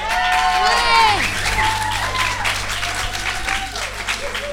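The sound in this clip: An audience in a hall applauds and cheers at the end of a live radio show recording, with loud, continuous clapping and whooping voices rising and falling over it.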